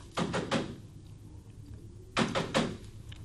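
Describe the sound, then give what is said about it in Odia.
Knocking on a closed window: two short bursts of a few sharp raps each, separated by a quiet pause. “ଆଉ ବର୍ତ୍ତମାନ ତ ତାଙ୍କର ଝରକା ବନ୍ଦ ଅଛି। ଝରକା ବାଡ଼େଇବି? ହଁ ବାଡ଼େଇବି।”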